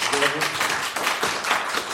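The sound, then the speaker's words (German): A talk-show studio audience applauds for Odysseus, a steady, dense clatter of clapping hands. A voice briefly speaks over it at the start. “Ich glaube, das ist mal schon ein großer Applaus für Odysseus.”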